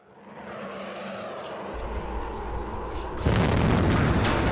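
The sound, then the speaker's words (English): A loud explosion on a street: a low, rumbling roar builds steadily, then a sudden, harsher blast arrives near the end and keeps roaring to the close. “a burst of yellow illuminates the road as a loud explosion rips through the air.”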